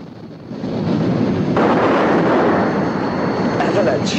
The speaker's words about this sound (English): The detonator is primed. An avalanche begins, a mass of snow turning to powder and slowly beginning its descent.